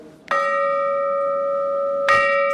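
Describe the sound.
A church bell struck twice by a machine-driven hammer: a bright metallic clang that rings on as a steady, sustained tone, then a second strike that renews the same ringing pitch.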